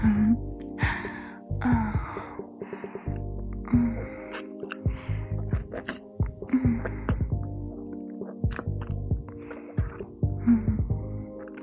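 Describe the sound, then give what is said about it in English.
Small, sharp inhales and breathy gasps from a person, repeated several times over a low, steady hum. “Was that little inhale you trying to stop yourself from moaning?”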